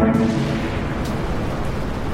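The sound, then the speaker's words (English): Rocket blast-off sound effect: a loud, steady, low-heavy roaring rumble that holds without a break for about two seconds, with no voices. “We have liftoff. It's our weekly blast off”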